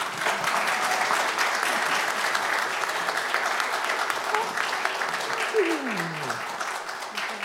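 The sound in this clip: Applause fills a church as a newly baptised child is welcomed into the audience, a dense, steady wash of many hands clapping that holds at an even, fairly loud level from start to finish.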